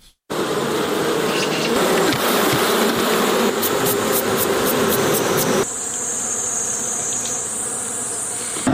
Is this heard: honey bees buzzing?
yes